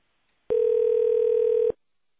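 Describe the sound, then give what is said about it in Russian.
A steady telephone line tone sounds while a call is being transferred: one even, mid-pitched tone lasting just over a second, alone and without speech. “Осуществляется перевод вызова. Пожалуйста, ожидайте.”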